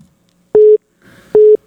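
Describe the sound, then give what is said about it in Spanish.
Telephone tones sound on an outgoing call: two short, steady electronic beeps at a single mid pitch, separated by a gap with faint background noise. “Ahí está ya sonando el teléfono rápidamente para el Capi Ramón Valverde.”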